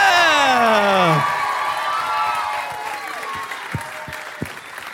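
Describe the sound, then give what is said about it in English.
Loud audience cheering and whoops greet comedians taking the stage, the shouted voices sweeping downward in pitch at the start before giving way to applause that gradually fades. “Could you please put your hands together and welcome to the stage Matt Stewart and Jess Perkins?”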